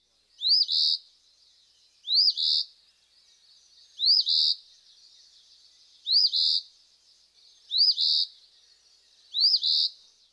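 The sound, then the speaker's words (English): Eastern Phoebe song: six short, high, emphatic two-part phrases spaced evenly about every two seconds, each a quick rising note followed by a buzzier second note, heard alone against a silent background. “Our next species is Eastern Phoebe. Listen to him abruptly sounding out his name.”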